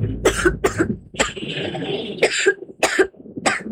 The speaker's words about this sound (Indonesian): Batuk ibu cuma numpang lewat. Tapi sudah seminggu nggak pergi, Bu.